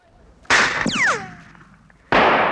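Gunshots from a Browning pistol in a 1976 recording: two loud, sharp bursts with a whistling whine that glides downward between them.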